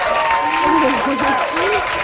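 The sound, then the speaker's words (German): Audience applause for a contestant, a steady clapping wash with a voice talking over it throughout. “Richtig, du, das ist mir schon mal den ersten Applaus wert.”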